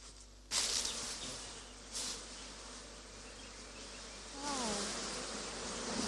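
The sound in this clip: Honeybees buzz in a dense, steady drone as the top bars of a beekeeping hive are lifted off, with louder surges at a few points.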